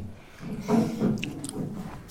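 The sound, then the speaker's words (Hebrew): Someone eats with soft, moist chewing and a few squishy bites, faint and unhurried, with no talking. “למה אני אוכל את זה?”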